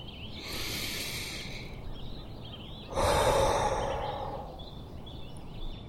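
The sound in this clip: A deep breath taken on stepping outside: a soft, airy breath is followed by a louder, fuller rush of air that slowly fades.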